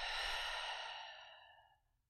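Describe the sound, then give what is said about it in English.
A deep breath out during a guided mindfulness meditation: one long, soft, breathy exhale that starts full and gradually fades away over about two seconds, with no talking. “taking another deep breath in and a deep breath out.”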